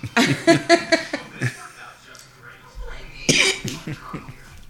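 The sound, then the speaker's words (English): A person coughing in sharp bursts, with a cluster of rough coughs at the start and another strong one later, interspersed with people talking and a brief chuckle. “Take your face away and cough. That's what I just did.”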